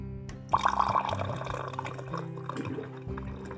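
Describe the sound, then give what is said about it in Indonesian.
Hot water poured onto ground coffee and sugar in a glass makes a steady liquid pour that starts abruptly and runs continuously to the end, with small splashy fluctuations and no voices. “dengan menaruh kopi bubuk dan gula di gelas lalu ditubruk dengan menuangkan air panas.”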